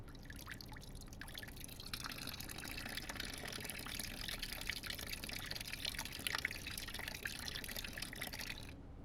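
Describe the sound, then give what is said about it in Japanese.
Hot water poured slowly into a bucket so it won't splash, giving a faint, steady trickle of liquid that runs unbroken throughout with no talking. “バケツを置いて。よいしょ。跳ねないようにお湯をゆっくり。”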